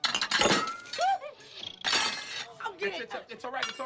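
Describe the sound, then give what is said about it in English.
Glass shattering as a drink is spilled at a dining table: two loud, bright crashing bursts with clinking shards, and voices in between. “smiles as he takes a sip from a glass, then spills it”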